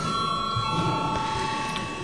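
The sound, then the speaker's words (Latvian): A bell rings in a parliament chamber before a vote, a steady electric ringing tone held throughout at a moderate level. “Paldies, lūdzu zvanu.”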